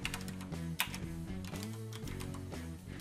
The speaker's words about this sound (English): I'm going to add Iowa. I'm going to add Missouri.